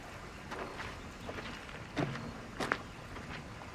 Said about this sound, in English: He nods and steps away.